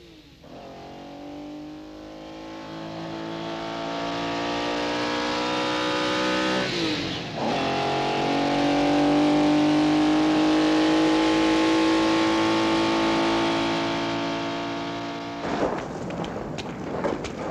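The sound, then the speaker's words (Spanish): A car drives off and accelerates hard, its loud engine note climbing steadily and broken by two brief dips at gear changes, with no voices over it. “coge el coche”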